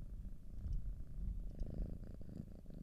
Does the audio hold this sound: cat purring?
yes

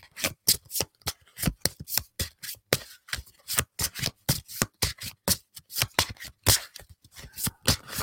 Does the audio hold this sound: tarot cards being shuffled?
yes

